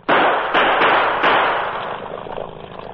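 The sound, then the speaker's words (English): Gunshots fired from an approaching motorboat: three sharp, loud cracks in quick succession, each a broad blast that rings on and fades slowly. “They're shooting at us. I'll use my gun.”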